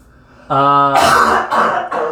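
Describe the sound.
A person clears something stuck in the back of the throat. A short voiced grunt leads into three loud, rough, raspy bursts of throat clearing.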